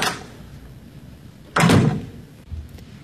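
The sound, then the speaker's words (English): A back door closes with one solid, heavy thump midway through, after a faint earlier rustle, and a lighter knock follows shortly afterwards. “I'll use the back door. Good night.”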